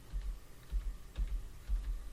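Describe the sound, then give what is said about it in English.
Keys tapped on a computer keyboard during a text-based game: a few soft, clustered clicks in an uneven rhythm, fairly quiet, with no voices. “All right, so I'm going to hit E, and then I will start pressing keys.”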